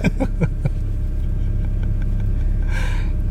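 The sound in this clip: A car engine running at idle, just started at a shop: a steady, deep, loud rumble throughout, with a few short tonal sounds at the start and a brief breathy hiss near the end.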